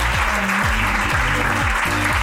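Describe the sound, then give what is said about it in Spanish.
Audience applause, a steady, dense wash of clapping that holds at an even loudness throughout, with a low repeating tonal pattern running underneath. “Pues un aplauso para Aina.”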